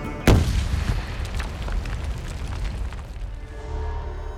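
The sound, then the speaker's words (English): An explosion blast in a military combat setting: one sharp, heavy boom, followed by a long rumbling tail that gradually settles. “Megan went unconscious as the blast launched her skyward 10 feet above the ground.”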